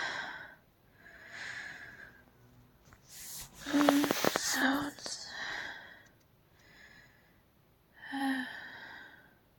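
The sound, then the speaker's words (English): Heavy, out-of-breath breathing: a series of ragged, breathy inhales and exhales, with louder gasping, snorting bursts in the middle and again near the end. “Just letting you enjoy my out of breath.”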